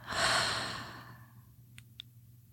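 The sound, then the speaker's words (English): A deep breath exhaled slowly during guided meditation, one long breathy sigh that swells at once and fades over about a second. Near silence and two faint clicks follow. “Take a deep breath in. Hold. And out.”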